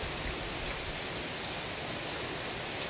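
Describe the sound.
Heavy rain pouring down in a steady, dense hiss that fills the whole clip without pause or change, heard alone.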